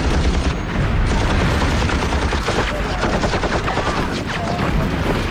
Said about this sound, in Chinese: 机枪！机枪！